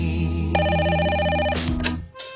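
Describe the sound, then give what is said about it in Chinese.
A telephone rings for an incoming call, a rapid electronic trill that repeats in short bursts over a sustained musical bed, fairly loud. “起身啦，白元浩打俾你。”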